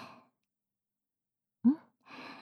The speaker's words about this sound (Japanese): 息、大きく吸って、吐いて